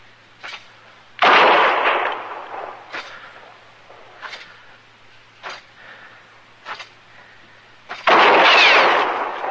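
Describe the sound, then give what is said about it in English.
Gunshots are fired at a marshal: two loud, heavy blasts stand out, with several shorter, fainter cracks scattered between them and no talk. “The next shot will go through your heart, Marshal.”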